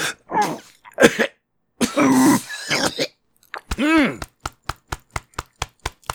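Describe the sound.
Coughing fit from a person who choked while talking: several harsh bursts, a long raspy stretch and a strained, voiced cough, then a run of short, sharp, evenly spaced knocks at the end.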